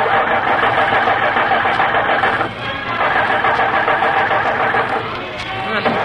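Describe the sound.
Car engine grinding and failing to catch on an empty gas tank: a loud, continuous, rough mechanical churning that dips briefly midway, then keeps labouring without settling into a run.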